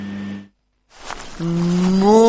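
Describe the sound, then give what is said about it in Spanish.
A cow gives a long, low, drawn-out moo that climbs in pitch toward the end, after a shorter low tone, a brief silence and a breathy rush. “Soy Margarita, la vaca influencer más seguida del Uruguay”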